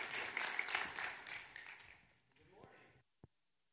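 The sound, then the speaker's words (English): An audience claps in applause to welcome a speaker at a morning church service. The dense clapping swells, then fades away, and a voice speaks briefly as it dies out. “So C2, would you put your hands together and welcome Heath Adamson to C2 this morning.”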